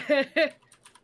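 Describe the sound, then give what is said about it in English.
Brief voice followed by a few faint, quick key clicks from typing on a computer keyboard. “You know, I'm going to type it in chat because I know that I can't say that without.”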